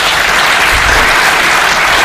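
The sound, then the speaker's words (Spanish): Loud, sustained applause greets a guest on a talk show, a dense, even wash of many hands clapping with no break and no voices heard over it. “Pido un aplauso de nuevo para Jesús.”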